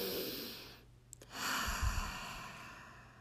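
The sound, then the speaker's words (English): A person takes a deep breath: a single long, soft, airy breath that swells and then fades, faint and heard alone. “I say start with a deep breath. And let's just start with that right now.”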